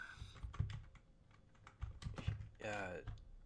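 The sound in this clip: Typing a Google search on a computer keyboard: short bursts of crisp, clicky keystrokes in quick runs, with a voice speaking briefly near the end.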